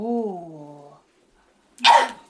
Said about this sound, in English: Was that you? I thought that was the dog. Sneezing.